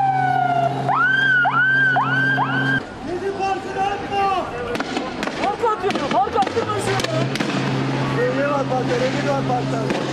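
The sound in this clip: Riot police clash with protesters in a city square in Istanbul. Repeated rising siren whoops give way to a dense, loud din of crowd noise, bangs and shouting voices that continues throughout.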